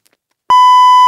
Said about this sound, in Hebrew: אפשר לצאת ביפ, אפשר לצאת ביפ?